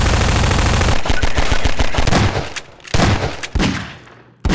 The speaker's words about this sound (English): The weapons sound even better this time around. I mentioned they pleased my eardrums last time, but some of the weapons in this game brought me to proverbial climax.